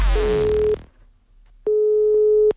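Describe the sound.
A telephone line tone sounds as a call is placed to a parent for a prank about children's football: two steady mid-pitched tone bursts of under a second each, the first overlapping other fading sound, then a pause before the second.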